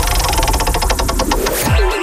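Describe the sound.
A prize wheel spins in a summer phone-in prize game, giving rapid, bright ticks that gradually spread apart as the wheel slows.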